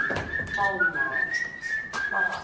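Whistling that imitates a blackbird: a person whistles one bright, sustained tone with small warbles and trills. It runs continuously at a fairly steady pitch and moderate loudness, with no talk.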